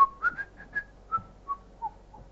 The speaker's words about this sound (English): I begin to whistle.